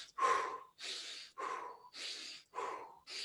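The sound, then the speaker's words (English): Rapid rhythmic breathing during breathwork practice: about six airy, hissing breaths in quick, even succession, each separated by a brief gap, with no talking. “So if I speed up my rhythm of breathing,”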